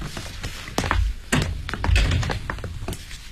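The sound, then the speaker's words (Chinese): A key unlocking and opening a thick door to a hotel suite: a run of sharp metallic clicks and light taps mixed with a few heavier wooden thunks, irregular in rhythm, with no voices. “宾馆的魏经理用钥匙打开一扇厚实的门”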